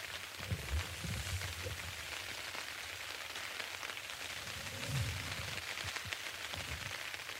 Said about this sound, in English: let's do a moment of silence. To just experience the rain on tent.